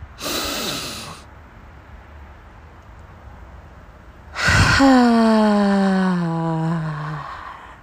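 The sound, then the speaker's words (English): Deep breaths drawn in during a guided breathing exercise: a short airy inhale, a pause, then a sharp gasping intake that runs into a long voiced sound slowly falling in pitch. “we're going to go ahead and do it. 4 deep breaths. Breathe in.”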